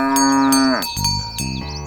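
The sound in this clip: A cow, the mother of a calf, moos: one long, loud, low call with a steady tone that drops in pitch near its end, followed by a lower, rougher lowing.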